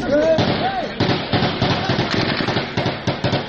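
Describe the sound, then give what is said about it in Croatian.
Exchange of gunfire at the scene of an armed attack on the premises of a children's aid organization. Dense, rapid cracks and bursts overlap continuously in a loud, chaotic stream. “Zvuk je razmene vatre koje su na mesto događaja zabeležili novinari Reutersa.”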